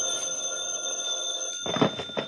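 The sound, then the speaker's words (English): A telephone rings with a steady, high electronic tone that wakes a sleeper, followed near the end by a few louder, noisy bursts. “The phone woke me up.”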